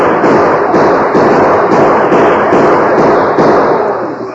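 Rapid gunfire in a radio western shootout, with many sharp, loud shots cracking in quick succession and forming a dense, continuous volley.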